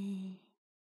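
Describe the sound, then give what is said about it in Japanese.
A single soft, voiced sighing exhale during a guided relaxation exercise: a short breath out that fades away within about half a second, followed by silence. “最後に一度だけ、深呼吸しましょう。吸って、吐いて”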